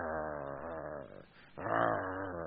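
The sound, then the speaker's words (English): A human voice imitates an animal's low growl or murmur with two rough, rumbling growls separated by a brief pause. “The word meditate means it actually has this idea of a growl or a murmur. The same Hebrew word that is used is what they would describe an animal going,”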